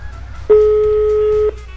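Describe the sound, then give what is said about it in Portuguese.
A single ringback tone comes through a studio phone hybrid on an outgoing call: one steady, mid-pitched tone lasting about a second, alone over a faint background hum, with no answer following. “deixa eu só apertar aqui direitinho o botão da híbrida, colocar aqui. Eu vou ligar pra ela pra ver se ela atende. Rapidinho. Ó, tá chamando.”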